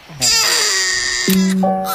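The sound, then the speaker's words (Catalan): A baby crying at four in the morning: a loud, harmonic-rich wail held for about a second, then a second cry that starts low and rises into a tighter, higher note. “i un bebè plorant a les 4 de la matinada”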